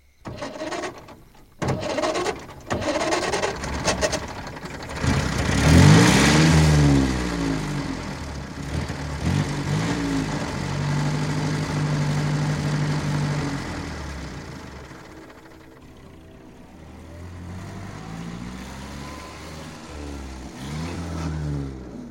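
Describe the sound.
A car engine in a radio play turns over with a few clicks, catches, and revs into a steady drone as the vehicle drives off, the sound gradually easing and fading.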